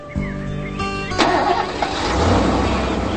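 A car engine starts up and the car pulls away, a low mechanical hum giving way to a broader, louder rumble as it moves off. No one speaks.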